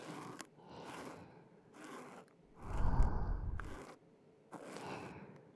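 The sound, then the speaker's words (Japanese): Cotton swab stroking in circles: soft, scratchy brushing swishes come in a slow series of separate strokes, one of them fuller and deeper than the rest, with quiet gaps between them. “ここを綿棒で撫でていきましょうか。ぐるぐると円を描くように。”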